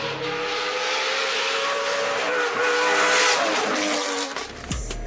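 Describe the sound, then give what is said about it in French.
Loud, sustained V8 roar of an Aston Martin Vantage GT4 rally car built by a Finnish preparer, at the 2017 Rallye du Var. The high revving carries tire squeal and dips briefly near the end before bursting again. “Regardez et surtout, écoutez le son du V8.”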